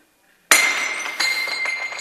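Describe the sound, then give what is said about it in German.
A white plate shatters with a sudden loud crash, followed by a spray of bright clinking fragments and a second smaller impact as the pieces settle. “Und dieser Teller ist jetzt kaputt, wie ihr sehen könnt.”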